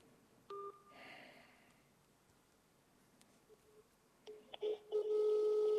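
A telephone call being dialled, faint overall: an early short electronic beep, then after a quiet stretch a cluster of keypad beeps running into a steady tone at the end.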